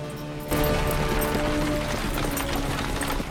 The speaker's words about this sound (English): Gisborne and Alan lead the wagon on through the forest.